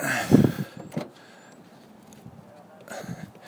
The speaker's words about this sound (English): I'm putting all my stuff in the rooftop box of my Nissan Xterra. You know, they have that cargo box on top. Close it up.